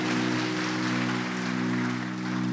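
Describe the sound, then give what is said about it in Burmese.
A church audience claps their hands in praise during a Sunday sermon, a dense, steady patter of many hands over a sustained low hum. “ထိုကြီးမြတ်သောဘုရားကိုလက်ခုပ်တီးလက်ချီးမွမ်းကြရအောင်အာမင်”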